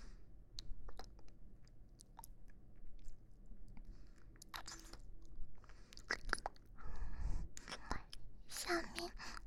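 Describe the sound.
Chewing on sausage: quiet, wet bites, small crunches and sharp mouth clicks in an uneven rhythm, with faint whispering at times.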